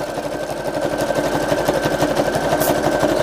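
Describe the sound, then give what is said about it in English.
A budget, store-bought sewing machine stitches fabric with a steady, fast mechanical whir and dense rapid ticking that holds at an even level throughout, with no voices. “And then we go around and we sew it.”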